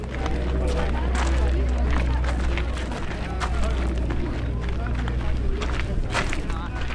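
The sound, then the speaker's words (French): Footsteps crunch on gravel, small stones and rocks while walking across a hillside. Many quick, gritty crunches run steadily under a constant low rumble. “Vous entendez bien le gravier qui crisse sous nos pieds.”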